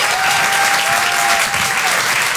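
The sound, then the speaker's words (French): An audience gives a speaker warm applause after his talk, a thick, even patter of many hands that holds steady for the whole stretch, with a faint high tone drifting beneath it. “faites un tonnerre d'applaudissements”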